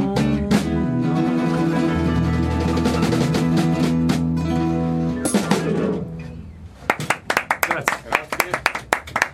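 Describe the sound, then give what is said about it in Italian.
A song ends and a thin, uneven scattering of handclaps follows from a small non-paying audience, irregular claps filling the last few seconds after the music stops. “applausi sono sempre un po' così.”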